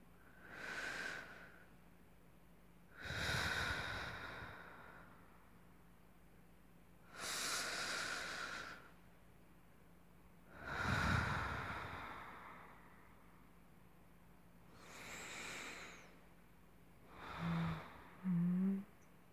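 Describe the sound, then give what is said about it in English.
Slow, deliberate breathing, faint and unhurried: five long, soft breaths spaced several seconds apart, followed by a couple of short, sharper breath sounds at the end. “Just breathe. Just breathe. You've got this, darling. Just breathe with me.”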